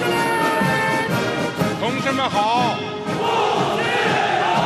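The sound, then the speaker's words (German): Massed voices call out in unison at a military parade for the 70th anniversary of the People's Republic of China. The loud, dense roar of shouting carries through without a break. “Das hier ist von einer Militärparade zum 70. Jubiläum der Volksrepublik China.”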